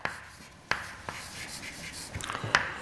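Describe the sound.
Writing out the total Hamiltonian equation of a many-body system by hand: faint scratchy strokes broken by a few sharp taps as the writing moves across the surface.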